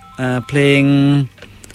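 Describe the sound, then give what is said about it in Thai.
A phone cut-off tone ending a caller's line on a radio call-in show: two flat, buzzy electronic tones, a short one and then a longer one, both loud and steady, followed by faint line noise. “น่าจะเป็นเสียงตัดสายไม่ให้โทรเกินมั้ง”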